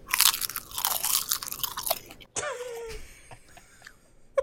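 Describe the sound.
Crunching on crisp seaweed snacks: loud, dense bursts of brittle crunching and chewing that fade into quieter, sporadic chewing sounds.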